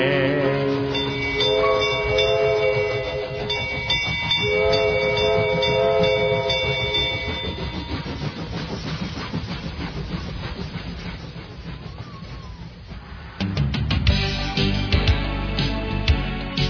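Train sounds play alongside steady tonal, whistle-like tones and hiss, and a heavier rumbling clatter swells near the end.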